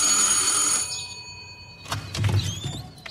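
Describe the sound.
A doorbell at the front of a house on Tara Road rings with a bright, steady electronic tone for under a second, then falls silent before a few soft clattering and shuffling noises follow.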